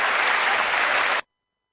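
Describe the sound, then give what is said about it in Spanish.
Steady audience applause at the close of a live segment holds evenly for just over a second, then stops abruptly into silence. “¡El aplauso, mariachi!”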